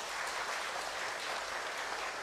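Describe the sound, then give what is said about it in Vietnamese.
Steady applause from an audience at a wedding gathering, a soft, even wash of many hands clapping that holds at low volume throughout without voices or breaks. “Hãy cho một tràng vỗ tay thật lớn nữa nào.”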